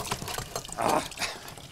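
Water splashes from a tap into a bucket held in the hand, a brief rushing gush that swells and fades in under a second against a faint background.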